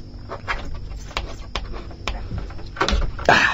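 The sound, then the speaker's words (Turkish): A screwdriver prying at a door to force it open gives a string of sharp, irregular metallic clicks, taps and rattles, ending in a louder rasping burst. “Yaşasın, kapı açıldı.”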